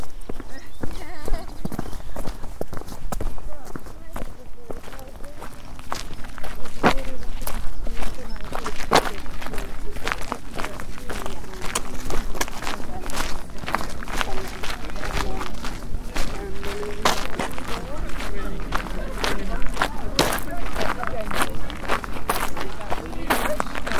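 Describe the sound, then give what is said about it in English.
Footsteps walking through Old Coast Guard Caravan Park on the way to Burton Bradstock, many brisk crunching steps in a steady rhythm, loud and continuous over a rough, windy outdoor background. “Walking through Old Coast Guard Caravan Park on the way to Burton Radstock.”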